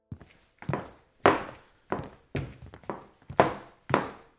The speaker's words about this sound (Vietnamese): Cả ba đứng dậy, di chuyển về căn phòng nằm ở đầu hành lang.